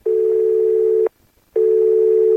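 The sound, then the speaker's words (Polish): A telephone call rings without being answered: a steady, low electronic ringback tone sounds for about a second, stops for a short gap, then sounds again, alone and at an even level. “Wydział Komunikacji, jak słyszę, nie odebrał.”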